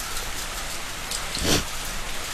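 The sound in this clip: Rain falls in a steady, soft wash of hiss, with scattered drop patter and one brief louder splash near the middle.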